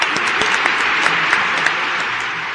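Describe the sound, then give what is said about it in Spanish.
Dense, steady applause from an audience honoring a news channel's staff, an even wash of clapping with a few sharper claps poking out, with no talk over it. “Así que nuestro aplauso de Mundo Bullicio a la gente que hace TN.”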